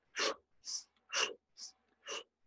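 Five forceful, rhythmic breaths make up a dragon breath exercise, each a quick, hissing puff of air at an even pace, fairly quiet, with short silences between them.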